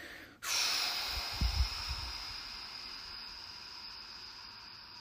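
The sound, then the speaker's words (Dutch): A long, slow exhale blown out through the mouth during a paced breathing exercise, starting abruptly as a broad, steady hiss that holds for several seconds and fades only slightly. “6 seconden inademen, 6 seconden vasthouden en daarna 12 seconden uitademen.”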